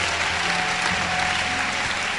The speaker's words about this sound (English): Give them a good clap offering.